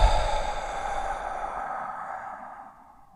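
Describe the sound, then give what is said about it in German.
A deep exhale through the mouth during a guided calm-breathing exercise: one long, breathy rush of air that starts strongest and slowly fades over about three seconds, with no talking. “Halte für einen kurzen Moment und atme durch den Mund tief aus.”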